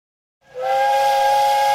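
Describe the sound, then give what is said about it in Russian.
The steam whistle of an approaching train starts after a brief silence and holds as one loud, steady, hissing tone. “Свисток подходившего поезда прервал рассказ сибирского орла на самом интересном месте. Поезд подходил медленно и тяжко, сдерживая свое движение.”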